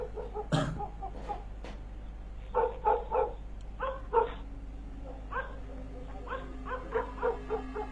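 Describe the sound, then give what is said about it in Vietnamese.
Neighbours' dogs barking and yapping, echoing over from nearby houses: many sharp barks and higher yips in loose clusters, with pauses between bursts and no voices. “Thậm chí đến đám chó của nhà hàng xóm cũng bắt đầu nghe tiếng hét động mà cắn lên nhắm nha nhắm nhẳng vọng đến.”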